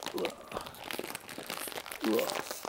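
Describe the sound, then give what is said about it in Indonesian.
Wrapping crinkles and tears as a package is opened during an unboxing, in faint, uneven bursts, with brief vocal sounds alongside. “buka aja lah mumpung lagi rekaman nih kan kita unboxing tapi nggak ada videonya gitu”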